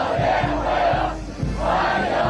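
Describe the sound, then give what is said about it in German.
Dozens of young Chinese people chant a welcome on the airport runway in Beijing as Trump arrives. The crowd's voices rise and fall in steady rhythmic pulses, about two per second, over a constant low hum. “was wir hier hören, das sind Dutzende junge Chinesinnen und Chinesen mit Sprechchören. Herzlich willkommen, rufen sie, noch auf der Landebahn direkt nach Trumps Ankunft am Flughafen in Beijing.”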